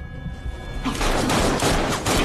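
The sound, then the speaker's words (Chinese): Dense gunfire from a film shootout in a factory building erupts after a quieter opening and then rattles on as a loud, continuous barrage of shots. “只见他迅速的转头射击、躲藏、救人，通过几个走位，借着对方的子弹打中了捆住雨衣男的绳索”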